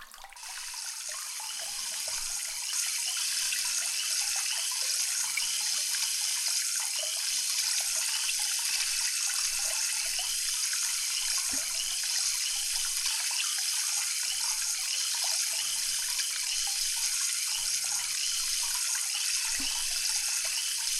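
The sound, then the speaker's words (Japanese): Tap water rinses hair at a salon. The flow starts a little softer, swells within the first seconds, then holds as a loud, steady hiss with no pause. “このまま洗い流してまいりますので、目を開けないようにお願いいたしますね。”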